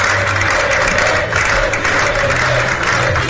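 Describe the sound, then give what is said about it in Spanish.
Sustained ovation of applause from a crowd greeting arrivals at a political party's headquarters entrance, a dense continuous wash of clapping at steady loudness throughout, with no speech. “acompañado por Feijóo, recibidos a la entrada de la sede con una ovación cerrada”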